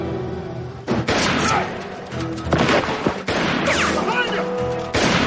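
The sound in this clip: Gunshots burst out several times within a dense, loud wash of crashing, rumbling noise that barely lets up between the sharper blasts.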